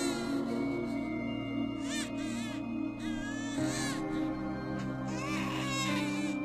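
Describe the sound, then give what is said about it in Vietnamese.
A baby cries loudly at night, shrill, repeated wails breaking out over a steady low drone, with several cries crowding the second half. “Tiếng trẻ con khóc vang lên choe choé trong đêm ma mị.”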